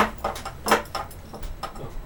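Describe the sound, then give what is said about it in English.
A door slams shut with a sharp, loud bang, with a few softer thumps and rustles around it. “Right, that was the door slamming. Not me headbutting it.”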